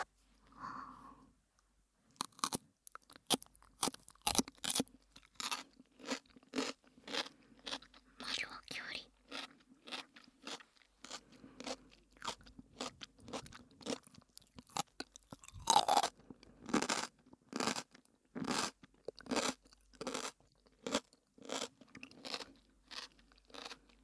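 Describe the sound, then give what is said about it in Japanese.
Crisp chewing of homemade asazuke pickled vegetables with ginger: many sharp crunches and bites in an irregular, fairly quick rhythm, fairly quiet, with short pauses between mouthfuls. “さて、本編で作った浅漬け食べるよ。”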